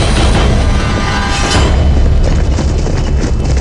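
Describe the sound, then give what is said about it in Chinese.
A gunshot blast among soldiers, heard as a loud, dense boom with heavy low rumble that stays strong and unbroken throughout rather than fading quickly. “怎么回事？是谁开枪？”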